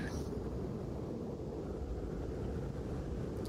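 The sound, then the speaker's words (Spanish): Storm wind outside makes a faint, steady, low roar that stays continuous throughout, with no talk over it. “salir ahí fuera con esta tormenta es una auténtica locura.”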